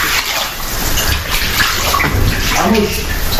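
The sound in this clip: Floodwater rushes after a heavy downpour in Kars, with a loud, continuous, hissing roar of moving water that stays at a steady level throughout with no breaks.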